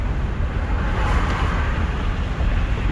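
Steady low road rumble inside a moving car, a constant dense drone with a faint high whine and no talk.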